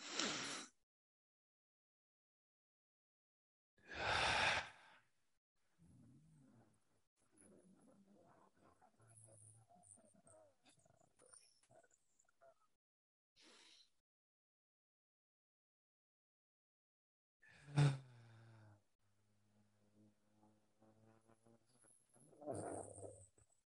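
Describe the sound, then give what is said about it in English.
Deep breathing as part of a breathing exercise: a few loud, breathy exhale-like bursts separated by long quiet stretches, with faint low murmuring in between. “The exhale will also be drawn out, but very deep. So it might go something like this.”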